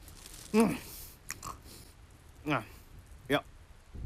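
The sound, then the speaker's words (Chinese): Chewing and eating of flower cakes, with soft, quiet biting and munching sounds broken by a few murmured hums through a full mouth. “梦莹刚刚买了两斤鲜花饼，吃吧吃吧，先堵住你这张嘴。”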